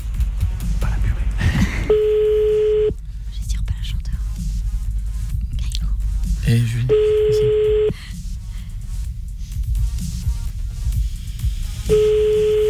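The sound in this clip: A telephone call ringing out, with three steady, evenly spaced ring tones, each about a second long. Low murmuring voices continue underneath throughout.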